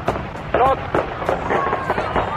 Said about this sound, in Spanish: ¡No tiren bombas, no sean malos!